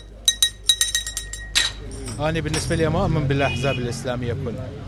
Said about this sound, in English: the wind is blowing in a different direction, according to the men playing cards at this tea shop in the city of Bakuba, north of Baghdad.